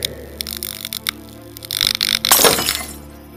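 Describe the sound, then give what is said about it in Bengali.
Light bulb bursting inside a room, glass shattering in a bright, crackling burst after a few sharp ticks, the noisy spray swelling and then thinning out. “ঘরের ভেতরে যে বাল্বটা ছিল সেটা ফেটে গেল”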